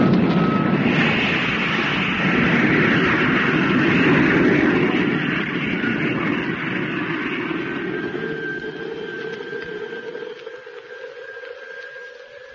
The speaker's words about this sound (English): Motor about to be fired for descent. Are you ready? Ready. Firing in 5 seconds from now. 4, 3, 2, 1, contact!